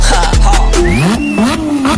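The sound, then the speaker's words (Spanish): Car engines rev loudly, their whining pitch sweeping up and down in quick surges over a continuous roar. “Arranquen los motores, ha llegado la hora de pisar el acelerador.”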